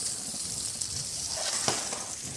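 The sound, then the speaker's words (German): Food sizzles in neutral oil in a pan that is hot but not too hot. A steady, dense hiss of frying runs evenly throughout, with no voices. “Darf jetzt nicht zu heiß sein. Weil sonst verbrennen die natürlich ganz schnell. Aber soll auch gleich anfangen zu braten.”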